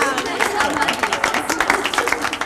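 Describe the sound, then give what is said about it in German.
Clapping from a small audience at a riding school hall, a burst of applause for a rider, steady and dense throughout with a voice speaking over it. “Und Herr Binz hat nichts dagegen, dass auch Amadeus mitmacht, der natürlich wieder einen extra Applaus einheimst.”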